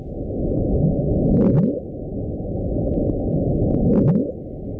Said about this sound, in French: Alors, on l'a appelé le bloop, parce qu'on entend ce bloop. J'espère que vous l'entendez bien, parce que François Porcheron l'a mis en boucle pour que vous puissiez bien l'entendre.